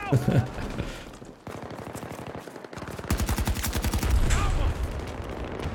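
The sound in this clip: Gunfire from an online shooter video game: fast automatic bursts of shots rattle almost without pause, with a dense, loud run of rapid reports in the second half.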